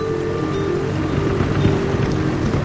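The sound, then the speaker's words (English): A tractor moving across a cotton field gives a steady, droning engine hum with a faint, constant tone, mixed with wind noise and no talk. “Luke watches the tractor move across the cotton field.”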